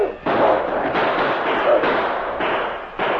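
Rifle fire during a siege of a frontier post near Dawson: a few loud, booming shots, each followed by a long rumbling, noisy tail that overlaps the next, forming a dense, continuous barrage.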